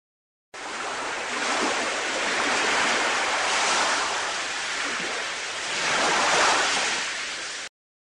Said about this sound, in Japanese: 最初の見本の水の流れる音と同じ音は何番かな？